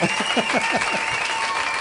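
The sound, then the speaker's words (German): Applause in a studio for a six-year-old boy, a dense, steady patter of clapping that lasts the whole moment, with a voice speaking over its opening. “Hier kommt dein Applaus, Jona.”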